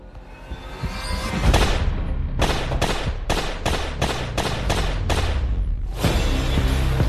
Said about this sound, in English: Nine shots in broad daylight.